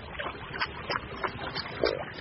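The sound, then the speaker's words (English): Oars splashing and feet stamping on a fishing boat as a fisherman drives cormorants to dive among reeds and lily pads: a faint, steady run of rhythmic thumps and splashes over a low rumble. “splashing his oars and stamping his feet on the boat”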